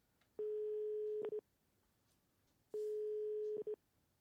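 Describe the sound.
The ringback tone of an outgoing telephone call sounds as two faint, steady single-pitch tones about a second long each, separated by a pause, each ending with brief clicks.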